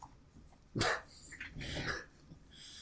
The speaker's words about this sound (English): Oh, oh, come here. Come on, doggo. Come on, you can do it.